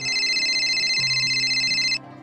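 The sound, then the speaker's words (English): A cell phone rings from an apron pocket behind a shop counter, a steady electronic ringtone of bright, rapidly pulsing tones over a lower hum that cuts off abruptly after about two seconds. “a curious Lenore retrieves her cell phone from her apron and answers the call”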